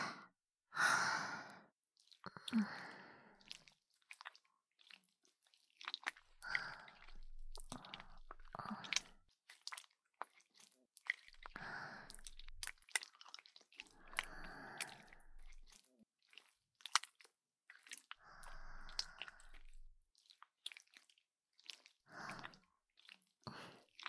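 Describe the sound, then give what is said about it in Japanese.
Soft, wet squishing and sticky squelches of liquid jelly being worked by hand in preparation for an ear massage, coming in short, faint bursts separated by quiet pauses. “君の耳をマッサージする。最初は手で、君の耳に液体のゼリーを塗っていくよ。ちょっと準備するね。”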